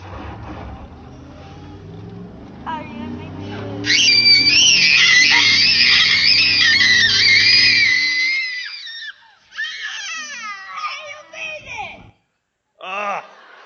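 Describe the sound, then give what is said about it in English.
The Rock and Roll Roller Coaster launches with riders screaming. A low rumbling build gives way to a loud, sustained chorus of high screams that fades out, followed by a few shorter bursts of yelling. “welcome to the rock and roll roller coaster. Please shut your eyes. Keep your hands and feet inside the ride at all times. And here we go. 5, 4, 3, 2, 1, ignition.”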